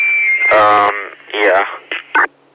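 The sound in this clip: Tone from a small FRS handheld radio with a sound at its end: a steady high tone gives way to a loud buzzy burst, then a few brief warbling chirps from the radio.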